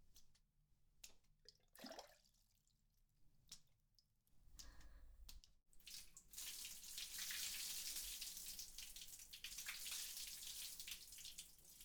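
Water is poured to rinse someone off during body washing. A few soft splashes come first, then a steady, hissing rush of running water fills the rest, faint overall.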